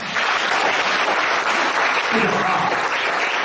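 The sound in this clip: Audience applause, a dense, steady clapping that holds at an even, fairly loud level throughout without a clear start or finish.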